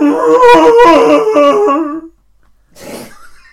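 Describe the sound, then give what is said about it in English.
A Chewbacca roar sound effect: a loud, throaty, warbling growl lasting about two seconds, then after a short gap a fainter, rougher grunt. “It just sounds like Zanny having a mental breakdown. It's just Chewbacca. It's just a Chewbacca.”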